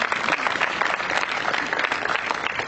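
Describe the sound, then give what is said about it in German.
Audience applause at an event, a steady dense patter of many hands clapping, fairly even in loudness throughout, with no voices over it. “Ja, ja, Applaus für die Ersten.”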